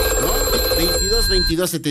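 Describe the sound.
Telephone ringing with an incoming call during a call-in contest: steady, sustained ring tones under a person talking, stopping about three-quarters of the way through while the talk continues.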